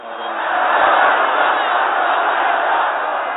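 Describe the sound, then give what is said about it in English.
A vast crowd of Iranians roars in welcome for Ayatollah Khomeini in Tehran on his return from exile, a dense, sustained roar that swells early and then holds steady. “There was a triumphant and tumultuous welcome in Tehran today by more than a million Iranians for the Ayatollah Khomeini, returning home from 15 years of exile.”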